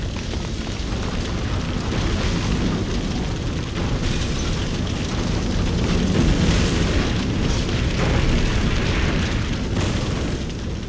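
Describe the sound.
A large fire roars with a steady, dense rushing and crackling noise that stays loud and even throughout, with no voices heard.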